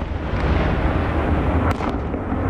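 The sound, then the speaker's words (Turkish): Explosions during a bombing raid on Kyiv: a loud, continuous low rumble of blasts sustained throughout the moment, with no voices. “Siren seslerini patlamalar izledi.”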